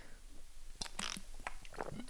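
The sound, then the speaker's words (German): A quick sip from a drink, heard as a few soft, wet mouth clicks and a brief swallow, quiet and alone. “Ich musste mal kurz was trinken.”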